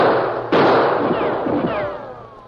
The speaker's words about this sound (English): We'll find out why the critter is firing on us.